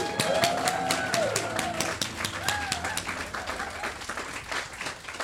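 Audience applause welcoming a Labour MP and a political reporter to the stage: dense clapping runs through the whole stretch at a steady level, with a few higher whooping tones rising above it.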